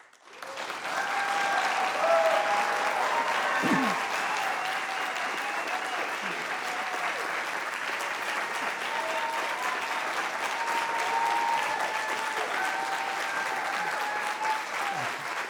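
Audience applause welcomes the vice-presidential debate candidates: dense, steady clapping rises quickly and holds at an even, moderate level throughout, with no voices over it.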